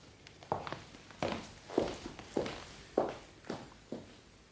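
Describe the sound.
Footsteps of a man walking away, a steady series of soft, even treads at a walking pace, faint and alone with no talk.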